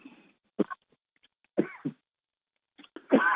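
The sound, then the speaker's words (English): Someone coughs during an online group meditation session: a few short, sharp coughs separated by quiet pauses, with the last burst a little longer. “who's coughing?”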